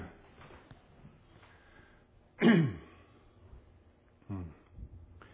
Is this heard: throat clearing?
yes

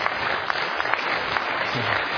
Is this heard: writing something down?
no

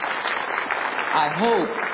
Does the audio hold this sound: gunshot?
no

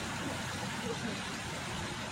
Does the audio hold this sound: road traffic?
yes

